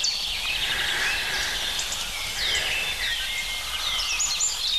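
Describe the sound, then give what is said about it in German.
A blackbird sings on a cold, sunny spring morning, with many short, high chirps and whistled phrases over a steady outdoor hiss. “Diese Morgenkälte, die Amsel sehr präzise singen lässt, aber dafür kurz.”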